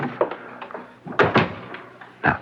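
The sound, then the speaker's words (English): A door closes as a man leaves a room, heard as a few soft knocks followed by two sharper clunks and a final solid thud near the end. “Would you leave the room, sir, and I'll make a selection. We shall wait until the door closes behind you.”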